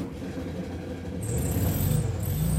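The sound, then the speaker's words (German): The boxer engine of a VW Beetle convertible rounds a corner with a steady, low mechanical rumble that grows slightly louder partway through. “Ihn erkennt man schon von weitem an dem unvergleichlichen Boxerklang, lang bevor er mit seinem VW Käfer Cabrio um die Ecke biegt.”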